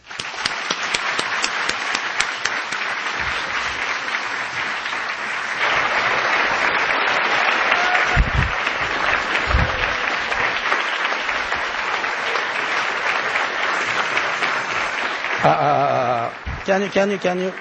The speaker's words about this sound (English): Please join me in welcoming Morimoto.